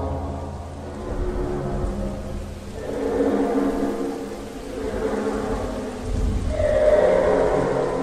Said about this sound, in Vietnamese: Mưa rền rĩ qua những khe kính và gió lùa theo cánh cửa lật ngoài hành lang, tạo thành tiếng u u hoang dại.